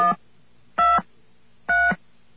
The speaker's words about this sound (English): Okay, so we got a second dial tone by dialing 660, and it's waiting for us to dial something else. Let's dial 123.